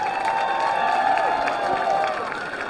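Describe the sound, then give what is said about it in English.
Crowd applause at a baseball game: a steady wash of clapping and cheering from the stands holds at an even level, with a sustained tone running through it, then eases slightly near the end. “They are applauding the junior PA announcer up there right now.”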